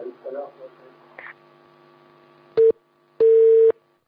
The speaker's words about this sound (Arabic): طيب انقطع الاتصال.